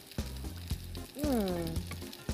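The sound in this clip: A potato rösti fries in a pan with a soft, faint, steady sizzle, broken by a few sharp clicks, while a short voice sounds over it.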